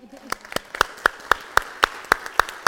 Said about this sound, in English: Congratulations on your graduation. It's a gift. From church and from Pastor and I. Thank you. Give her a hand.